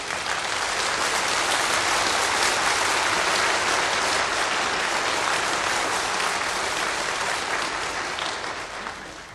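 An audience applauds at a 1950 political rally for the newly elected West German chancellor, a dense, steady roar of clapping throughout that eases slightly at the end.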